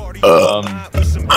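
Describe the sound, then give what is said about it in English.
Loud, low, rasping burping from a man, long and drawn out, with short voiced sounds between the belches. “Why do you have to open every single one with a fucking burp?”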